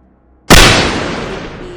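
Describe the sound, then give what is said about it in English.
A single gunshot as a man shoots himself with a gun pointed at his head: after a brief quiet, one sharp, very loud blast, then a long, fading tail that dies away slowly, with no voices. “No! Help! He shot himself!”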